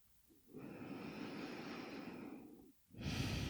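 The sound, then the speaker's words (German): Deep, slow breathing in and out during a guided meditation: one long, steady breath lasting about two seconds, a brief pause, then another strong breath begins. “Und dann atme tiefer ein und aus.”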